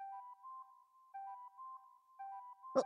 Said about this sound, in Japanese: あ、何これ、一気にメッセージ来たんだけど、まだ止まんないし。